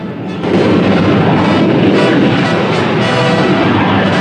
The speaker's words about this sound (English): A large airliner on final approach swoops down towards a landing.